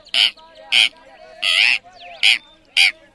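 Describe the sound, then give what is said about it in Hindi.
A parrot's call: five harsh, loud squawks evenly spaced with short silences between, the middle one held slightly longer than the rest. “ये तो तोते की आवाज है।”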